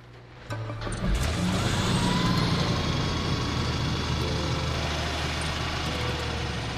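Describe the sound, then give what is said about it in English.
A car engine drones steadily while driving, a dense, even rumble that swells in after a brief quiet start and holds at a constant level. “Drive us home, Dr. West.”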